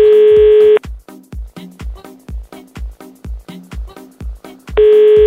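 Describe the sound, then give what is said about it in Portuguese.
A telephone being dialed to call someone: a loud steady electronic tone opens and closes the sequence, with an even, rapid run of short pulses in between. “Então, vamos ligar pro Newton.”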